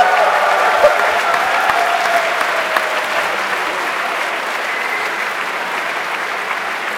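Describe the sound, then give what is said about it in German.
Applause from a crowd, a dense and even wash of clapping that carries on steadily for the whole stretch without a break or pause. “Applaus!”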